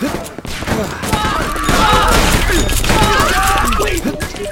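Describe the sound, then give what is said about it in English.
A bomb blast in a video game with revolvers and medkits: loud, dense booming and crashing with clattering debris and a continuous rumble, while speech runs over it. “Das war bestimmt William, der hat wieder eine Bombe geworfen.”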